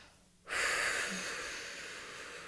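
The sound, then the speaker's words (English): Long exhale through pursed lips, a soft, steady, hissing rush of air that starts abruptly and then slowly fades over about two seconds, faint and alone. “and just exhale with my mouth open or just through pursed lips to hear that tension and anxiety leaving me and going away.”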